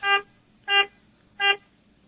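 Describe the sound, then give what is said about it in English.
Three short honks of a car horn at a town line, evenly spaced with quiet gaps, each a bright, buzzy, steady tone of similar loudness. “if you're at the town line, honk your horn three times”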